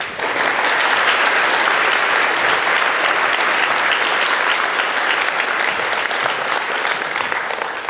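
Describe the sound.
A crowd applauds to welcome a speaker, giving loud, continuous clapping that stays at a constant level throughout without easing off.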